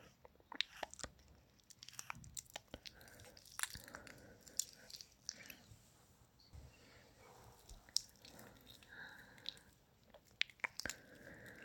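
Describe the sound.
Someone chews candy very quietly, with many small crunchy clicks and wet, squishy bites scattered unevenly throughout, alone without talk.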